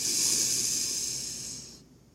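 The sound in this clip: One long, airy exhale during a guided breathing exercise, a soft steady hiss that gradually fades and then stops near the end.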